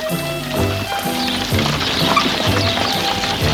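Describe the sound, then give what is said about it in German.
Horse hooves clip-clopping as a horse-drawn carriage travels, a steady repeated trotting rhythm at moderate loudness with no voices. “Ein paar Stunden verbrachten die beiden in Yonville und dann bestiegen sie die Kutsche der Bovarys.”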